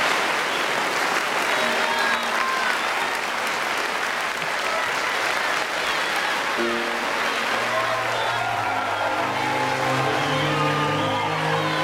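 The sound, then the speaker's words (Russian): A whole theatre audience stands and applauds after a stage play, a dense, loud, unbroken roar of clapping throughout, with sustained musical tones joining in the second half. “Весь зал встает и аплодирует.”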